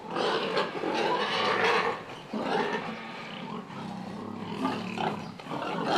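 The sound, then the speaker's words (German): Loud, harsh squealing and grunting from a sow and boar at natural mating in a pig barn, running in a few long, rough bursts with brief dips between them. “Und die Sau soll besamt werden. Im Natursprung.”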